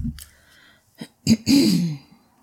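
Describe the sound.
Throat clearing by a speaker who has something caught in the throat: a few short, rough bursts, then a longer rasping clear that trails off. There is no talk around it.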